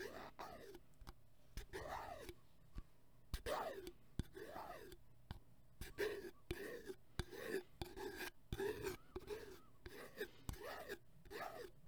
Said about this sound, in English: As you can see, it has a much different sound than the other ones. And you can hear the sticker as well.